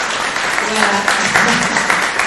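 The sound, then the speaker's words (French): An audience applauds the organising committee members as they stand, giving a continuous, fairly loud round of clapping with a voice talking over it. “J'aimerais juste que les personnes qui sont dans le comité se lèvent et que peut-être on les applaudisse.”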